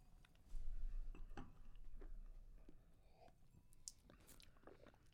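Soft chewing and biting while tasting food, with quiet, irregular crunchy mouth sounds at low volume.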